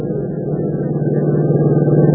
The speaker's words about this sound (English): climbs into the stand with Joe as they drive away